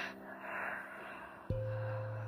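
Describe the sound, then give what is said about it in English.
Long open-mouth exhale at the end of a yoga flow: a soft, breathy rush of air lasting over a second, followed by a steady low tone. “And with a final inhale and an open mouth exhale,”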